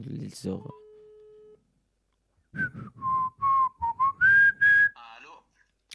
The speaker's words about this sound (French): je t'appelle encore une fois. Ici. Va-t-il décrocher